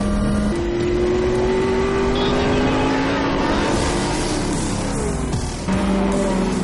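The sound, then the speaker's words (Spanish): A black Porsche and a red Ferrari sports car race almost side by side, their engines giving a loud, sustained roar. The engine tone climbs steadily for several seconds, then drops near the end, with no voices. “El Porsche negro y el Ferrari rojo van casi a la par. Exprimen toda la potencia de sus máquinas.”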